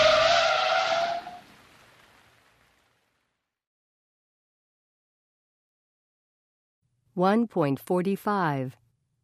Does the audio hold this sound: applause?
no